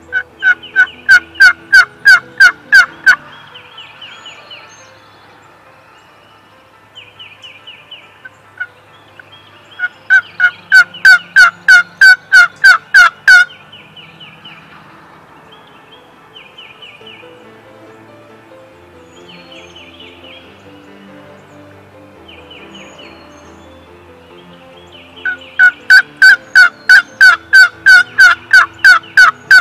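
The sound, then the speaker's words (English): Two wild turkey gobblers sound off on the roost: loud, rapid, rattling gobbles arrive in three distinct bursts, with quieter clucking and yelping calls in the gaps between them. “two gobblers gobbling on the roost”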